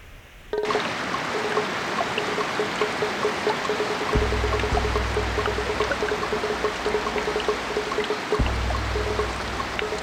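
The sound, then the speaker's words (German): Heavy tropical rain drums on leaves in a downpour: a dense, steady roar of falling water sets in abruptly after a brief quiet start and stays loud throughout, with a deeper low rumble joining for stretches. “Gewaltiges Trommeln auf allen Blättern. Ein Wassersturz wie eine Sintflut.”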